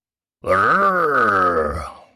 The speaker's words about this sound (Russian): Хриплое дыхание проникает, будто в самое сердце